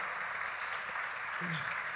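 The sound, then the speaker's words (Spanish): An audience applauds during a bilingual church service, a steady wash of clapping hands at moderate level, with a voice faintly present underneath. “Y démosle un aplauso a Dios por ese and bien give the Lord an applause for this wonderful good.”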